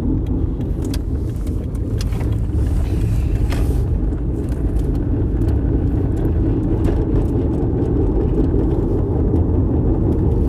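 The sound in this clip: Cars on the road make a continuous low rumble of traffic and engine noise, loud and steady from start to end, without clearly separate pass-bys and with no talking.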